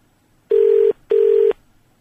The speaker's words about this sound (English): if I do that, and then dial. There we go. Oh, no, I've dialed reception, I think.